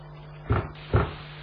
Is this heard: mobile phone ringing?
no